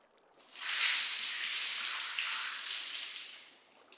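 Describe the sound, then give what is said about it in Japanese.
Water poured over a person's head to rinse at a hot spring, a steady rushing splash of about three seconds that swells quickly, holds, then tapers away. “では一度頭から流しますね。”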